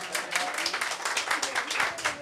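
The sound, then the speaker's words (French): Applause rings out for the performing artists at a Radio Bonheur event, a dense, steady patter of many hands clapping that swells and dips slightly across the whole stretch. “les derniers applaudissements pour Erika, pour Maria,”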